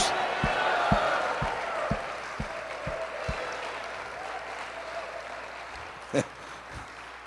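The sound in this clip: Applause from a church audience: dense clapping that slowly thins out and fades, with a few low thuds in the first seconds.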